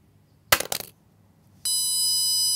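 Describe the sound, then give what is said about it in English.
A small device clatters as it is dropped, then its built-in piezo buzzer starts a shrill, steady tone that keeps sounding to the end. “you may also hear we've got a little buzzer, a little piezo buzzer built onto there, and that's going to sound as well if I drop it from a great enough height and don't cushion it.”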